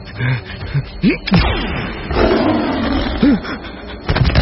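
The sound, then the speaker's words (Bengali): A huge black tiger roars and leaps with a deep, rumbling growl. The roar is loud and mixed with a few brief sweeping and thudding effects over a few seconds. “কালো ছায়াটা গর্জন করে শূন্যে লাভ দিয়েছিল। সেটা এখন জিশানের কাছাকাছি এসে আছড়ে পড়ল। কালো বাঘ, এত এত বড় হয় জানতামই না।”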